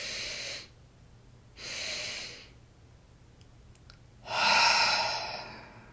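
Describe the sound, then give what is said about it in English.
Breathing exercise: a short inhale, a pause, a second brief inhale, another pause, and then a longer, louder exhale that lets the air all the way out. “so that's inhale, hold, another little inhale, hold, and then an exhale all the way out.”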